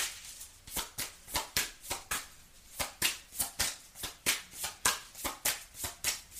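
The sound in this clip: Tarot cards being shuffled and drawn. Many quiet, crisp card slaps and riffles follow each other in a steady, regular rhythm, with no voices.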